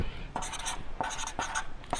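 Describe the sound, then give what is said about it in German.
Handwriting with a pen on paper: several short, scratchy strokes at an irregular pace, quiet and on their own with no talk. “Ich schreibe es mal dabei.”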